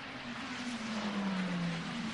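A Peugeot race car, number 94, on a full fuel load and a new set of tyres, rolls into the pit lane: a faint, steady low engine drone with a slight dip in pitch and no talk.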